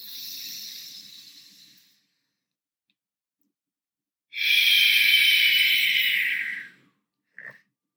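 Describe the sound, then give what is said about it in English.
Deep breath in during a guided breathing practice for calming the nervous system. A soft airy breath fades out first, then after a pause comes a long, loud, hissing inhale lasting a few seconds, followed by a brief click, with no talk. “Take one more deep breath in.”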